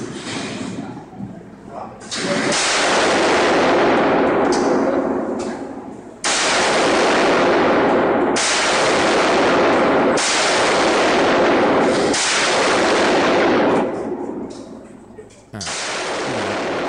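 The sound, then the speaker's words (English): AK-47 rifle fire: several loud, harsh, distorted shots, each followed by a long, roaring decay that fills the gap before the next one, spaced roughly two seconds apart. “This is me shooting an AK-47. Right here.”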